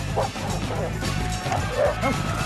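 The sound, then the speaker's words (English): A dog barks and yips in a video of someone fleeing it at the end of a park near a fence. Several sharp barks come in quick bursts over steady noise, with people's voices mixed in. “It's me running away from a dog.”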